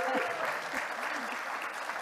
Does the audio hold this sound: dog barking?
no